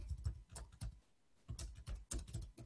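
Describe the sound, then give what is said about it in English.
Typing on a computer keyboard while filling in a form's input field: faint, rapid, irregular clicks of keystrokes, with a brief pause in the middle. “So I'm just going to put down here, start typing.”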